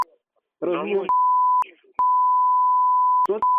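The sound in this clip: A steady mid-pitched telephone tone after a call is cut off. It sounds in long unbroken stretches, interrupted twice by brief bursts of speech.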